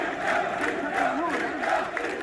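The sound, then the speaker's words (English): Crowd chanting at a protest outside a mosque in Darna, Libya, after a deadly flood: many voices rise and fall together in rhythmic, shouted phrases, a sustained loud mass of voices with repeating swells. “Crowds of people chanted and held banners outside the mosque”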